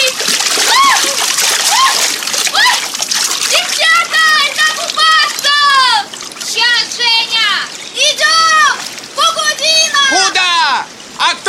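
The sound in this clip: Water splashes as people bathe near a riverbank, with loud, excited voices shrieking and calling in many rising and falling cries over the splashing.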